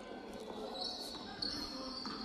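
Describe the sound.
A basketball dribbled during a game: a few faint, dull bounces against low background noise, with voices in the background.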